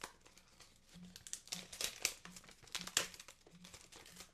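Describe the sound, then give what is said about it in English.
A paper envelope with a plastic window is torn open in quiet, irregular bursts of crinkling and ripping rustles, with no talk. “usually it's not in an envelope with a plastic window in front of it, right? But anyway, let's open it up. Let's see what's inside. So I'm just going to open this up right now.”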